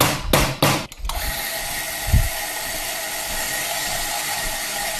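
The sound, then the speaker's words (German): An espresso machine's gear pump starts up for a pressure-profiled shot at about 9.5 bar: a few sharp clicks, then a steady, even whirring hum that holds at a constant level. “Das ist die Zahnradpumpe, die wir hören. Hat immer so eine Anlaufzeit.”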